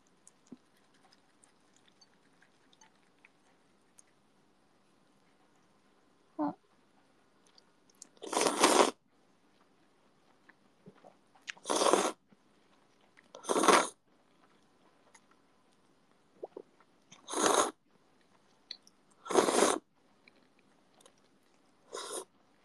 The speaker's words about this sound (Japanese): やっぱ深夜のラーメンは最強なのよ。いい音奏でてる。